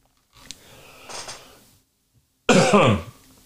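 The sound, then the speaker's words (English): A fit of coughing and choking by a man: a short sharp cough, then a longer raspy throat-clearing, then after a pause one loud, harsh cough burst. “I'm going to choke for a second. My apologies.”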